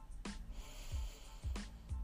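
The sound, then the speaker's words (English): Airy nasal breathing during a slow, guided relaxation exercise: two short, hissy breath bursts about a second apart, with soft low thumps between them. “just take an inhalation through the nose. And then exhale.”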